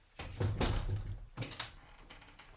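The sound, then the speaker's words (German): A window is opened, giving a couple of dull wooden thunks and scraping knocks: a longer rattling push followed by a shorter bump, moderately loud, then a quiet tail. “Kann man das Fenster aufmachen? Ja, bitte.”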